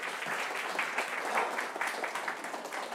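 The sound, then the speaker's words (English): Steady applause from a church audience: a dense, even patter of many hands clapping, moderately faint, lasting the full few seconds without speech. “Let's give Rebecca a round of applause”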